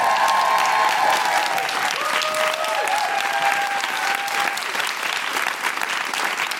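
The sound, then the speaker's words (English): Audience applause welcomes a comedian to the stage at a live show. The clapping is loud, dense and steady, a continuous wash of claps from start to finish. “Put your hands together and welcome to the stage, Deborah Frances White.”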